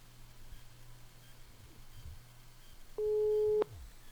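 A telephone tone sounds while a number is dialed to reach a prize winner: one steady, clear beep lasting just over half a second, rising above a low continuous hum near the end.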